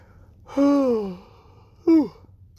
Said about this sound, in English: I'm just, like, laying down, getting comfortable, so I'm kind of yawning.